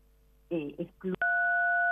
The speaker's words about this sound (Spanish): Disculpe que se le cortó la voz con algún sonido del teléfono. Allí no sé si está... ¿Escuchan? A ver si te... ¿podrá ser que usted esté apretando con el cachete sin querer algún teclado?